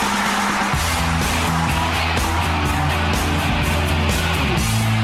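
Car traffic sound effect with a tyre skid: loud, continuous road roar with shifting low engine tones that never drops away.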